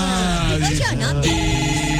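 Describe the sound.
A telephone rings with an incoming call, its steady electronic ringtone sounding throughout while a person talks over it.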